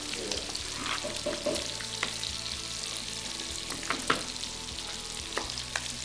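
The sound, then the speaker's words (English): Spoon stirring mac and cheese in a pan over heat, with soft, irregular scraping and a low sizzle running underneath. “I want one of these girls over here to stir up their mac and cheese.”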